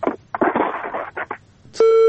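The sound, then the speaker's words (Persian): A steady electronic telephone tone sounds after a call drops: one sustained, pitched beep with bright harmonics starts near the end, after a stretch of people talking. “بالاخره تماس قطع شد.”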